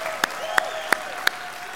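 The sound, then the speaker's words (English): Church audience applauding at a Sunday morning service, a steady wash of clapping with four sharp, evenly spaced loud claps standing out above it. “Come on, let's give him a shout of praise worthy of him today.”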